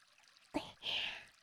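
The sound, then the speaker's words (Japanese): Water poured to rinse after washing: a brief splash, then a steady hissing pour lasting under a second. “洗い終わりました。じゃあ流しちゃいますからね。”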